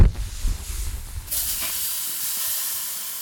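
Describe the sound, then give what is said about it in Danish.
A Charbroil barbecue grill is lit with a steady, loud hiss that starts about a third of the way in. Low rumbling thumps come before it, and the hiss then holds evenly to the end. “men lige her nu, der skal vi have tændt op for grillen”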